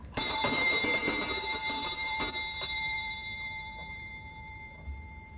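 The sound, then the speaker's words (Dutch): Doorbell ringing in the evening: a sharp metallic bell strike followed by a sustained ringing tone that slowly fades, with a few faint clicks during the decay. “Diezelfde avond werd er weer gebeld.”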